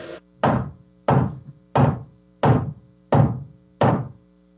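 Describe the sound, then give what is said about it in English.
A metronome ticks six times at a steady, even pace, each tick a sharp woody knock with a short decay, separated by silence. “I believe the sound of the week is a metronome. Cheers. And ding, ding, ding, ding, ding. That is correct.”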